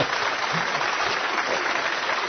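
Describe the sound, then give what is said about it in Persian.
Hand clapping fills the moment, a dense, steady wash of claps with no pauses and no talk over it. “یه کف بزن برای خودت.”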